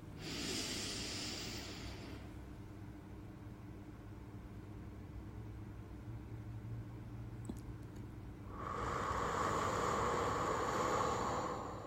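Slow exhaled breath during a relaxation breathing exercise: faint, airy hissing breaths, a short one at the start and a longer, fuller one at the end, with quiet between them.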